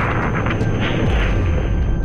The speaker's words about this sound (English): We have a report from the flight dynamics officer that the vehicle has exploded.